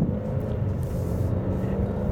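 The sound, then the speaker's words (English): A car being driven gives a steady low rumble of engine and road noise that holds at an even level throughout, with no voices. “hold on a second, I'm trying to do some driving here”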